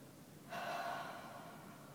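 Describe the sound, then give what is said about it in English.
A breathy exhale through an open mouth after an overhead stretch in a guided stretching routine, starting suddenly and then trailing off slowly into a soft, steady hiss. “and then open the mouth and exhale”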